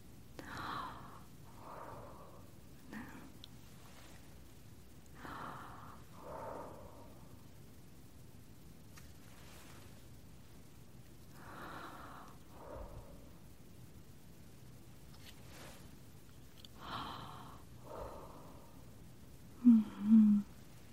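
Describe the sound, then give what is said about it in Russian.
Deep breaths drawn in through an open mouth during a physical examination, soft and airy, repeating in several spaced pairs over a quiet background. “Глубокий вдох с открытым ртом.”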